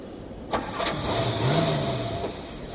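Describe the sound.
A car engine starts: a short starter crank, then the engine catches and settles into a steady, moderately loud running hum.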